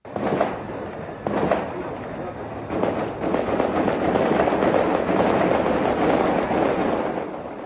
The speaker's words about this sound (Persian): این صدای تیراندازی شبی سه‌شنبه به چهارشنبه از قلب کابل از منطقه گذرگاه محل واقع در تپه‌های اطراف قسمت قدیمی پایتخت افغانستان بلند شد.